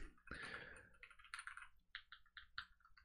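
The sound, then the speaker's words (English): Buttons pressed on a small number pad, a quiet run of quick plastic clicks in short irregular bursts. “I'm just going to press buttons on my little number pad.”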